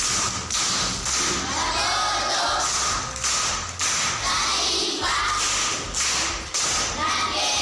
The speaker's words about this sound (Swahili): Makofi kwa mjomba.